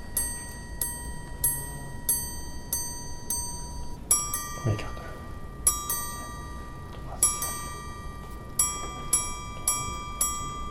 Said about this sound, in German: Bis zu 2 Monate verbringt ein Uhrmacher alleine an einem Werk, das in ganz exquisiten Fällen die Zeit nicht nur anzeigen, sondern auch akustisch hörbar machen kann.